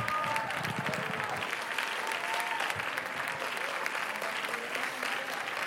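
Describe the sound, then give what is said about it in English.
A church audience claps in praise. Many hands make a continuous, dense clatter at a steady level, with voices mixed in. “let's clap our hands unto the Lord right now.”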